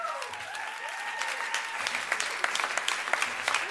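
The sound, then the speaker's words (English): Audience applause as a speaker is introduced: steady, dense clapping that carries on for several seconds at a fairly soft level without letting up. “Please make some noise for Dr. Nick Brown!”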